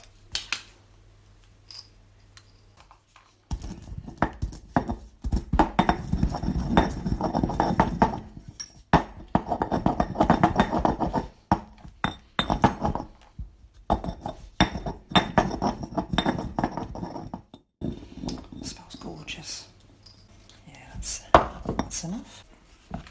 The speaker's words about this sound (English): I've got whole cloves, so I'll need to grind those down, won't I? I'll just get the pestle and mortar out. Right, let me just get the cloves.